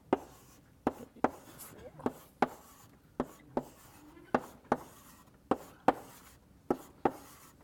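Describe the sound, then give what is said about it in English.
A diagram of a skip list with nine elements is drawn by hand on a board during a lecture. Many sharp, faint taps and short scraping strokes follow one another at a fairly steady pace. “So I won't erase this, but I'll draw one out.”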